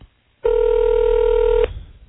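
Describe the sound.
A telephone tone sounds once as a call is placed: a single steady, loud, mid-pitched buzz that holds for just over a second, then cuts off.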